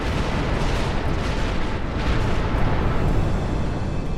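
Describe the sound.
A cosmic explosion effect depicting an exploding star: a loud, dense roaring rumble with a heavy low end that rolls on without a break for about four seconds.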